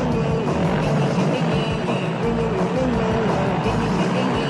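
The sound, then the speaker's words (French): A motorized gas bicycle engine runs with a steady, rough, buzzing drone. It stays loud and unbroken throughout, with a rumbling low end. “La belle-mère en bicycle à gaz. La belle-mère en bicycle à gaz.”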